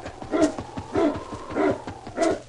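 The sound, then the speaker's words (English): Dog barks from a sled dog team, four short harmonic bursts at a steady, even rhythm, moderately loud, with no talk over them. “Say, that's a dog team.”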